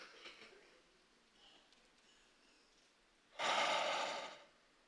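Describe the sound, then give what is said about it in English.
Deep breathing exercise: faint breathy sounds give way to one loud, broad rushing exhale that lasts about a second, heard alone with no talk. “The way you're going to take a few deep breaths is you're just going to breathe in, you're going to hold it for 3 or 4 seconds, and then you're going to breathe back out.”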